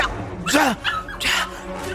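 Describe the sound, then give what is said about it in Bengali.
An angry dog snarls and yelps in a few short, harsh bursts with sweeping pitch, separated by brief pauses. “কুকুরটা মাথা নিচু করে পা আছড়াতে আছড়াতে রাগে গজরাচ্ছে”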